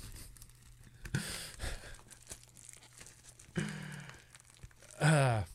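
Crinkling and tearing of a plastic UPS mailing bag being opened, the package jammed inside another bag covered in stickers; a few separate bursts of rustling plastic, with a louder, sharper rip at the end.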